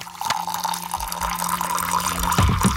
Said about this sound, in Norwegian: Det noen som heller seg opp litt te, ja. Mm. Rører litt.